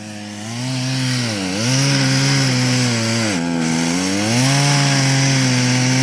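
A chainsaw cuts a notch into a tree trunk. Its loud, continuous engine whine bogs down and recovers twice as the chain bites into the wood, then runs strong to the end.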